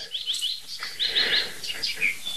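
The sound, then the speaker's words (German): Birdsong that includes tits, bursts of short, high chirps and whistled notes repeated in quick succession at a fairly faint level. “Meisen drin, Alarmanlagen, irgendwelche Vögel aus ferner Landschaft.”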